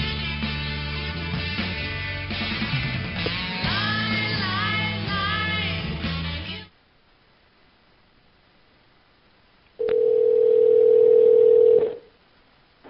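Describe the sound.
Music cuts out, then after a quiet pause a steady telephone dial tone hums for about two seconds as a call is placed, a flat, buzzy, unchanging pitch that stops abruptly.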